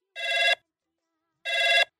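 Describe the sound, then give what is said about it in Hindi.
A telephone rings while a call connects, with two bright, trilling rings separated by a pause. “खुशी से, तो मिलावा जाए phone और बात की जाए उनसे।”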